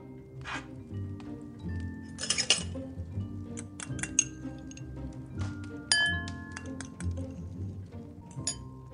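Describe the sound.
Light clinks of a spoon against a bowl as strong mustard is added to raw egg yolk, with a few sharp metallic taps scattered over a soft, steady background.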